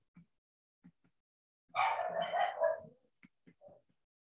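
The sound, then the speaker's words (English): Dogs barking at home in Monterey: one loud burst of barking about a second long, with a few faint short ticks before and after and no talking. “You can probably hear my dogs in the background.”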